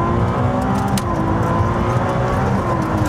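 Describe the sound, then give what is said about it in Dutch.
Engine of a Ferrari 296 Speciale sports car during a test drive, a loud, steady drone with clear humming tones and no marked change in pitch. “de rijimpressie. Wouter test de Ferrari 296 Speciale”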